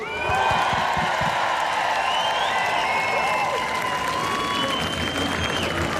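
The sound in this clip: A live crowd cheers and applauds at a stage event, loud and sustained throughout, with dense clapping, whoops and shrill calls layered over a steady roar.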